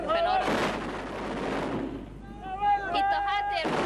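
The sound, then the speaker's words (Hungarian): Booming anti-aircraft gunfire from weapons seized from Gaddafi's stockpiles as young fighters train near Ras Lanuf on a Libyan front line, heard as broad, rumbling bursts of noise with voices over them. “éppen arra tanítják a fiatalokat, hogy hogyan kell a légvédelmi fegyvereket használni, amelyeket Kadhafi raktáraiból zsákmányoltak.”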